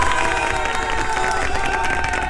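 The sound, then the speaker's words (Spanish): Loud cheering and applause from a crowd celebrating a niece's milestone achievement, a continuous wash of clapping mixed with shouts and voices that holds steady throughout. “Para Sofi, para la tía, un aplauso muy, muy, muy grande.”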